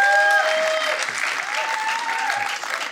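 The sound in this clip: Audience applause welcomes a speaker to the stage at a church gathering. The steady, dense clapping runs throughout, with faint sustained tones beneath it.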